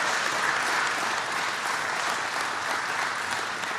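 A New Jersey crowd applauds to welcome President Joe Biden. Dense, even clapping stays loud and steady for about four seconds, with no voices rising above it.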